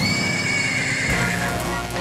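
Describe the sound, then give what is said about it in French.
A horse neighs in one long, sustained whinny lasting about two seconds over a steady background hiss. “Hermod remonte à cheval, traverse le pont et prend lui aussi le chemin de Helheim”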